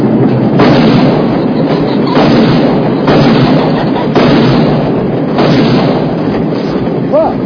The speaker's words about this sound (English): Let's say a dollar a pheasant. I'll shoot for the queen and you for, well, whomever.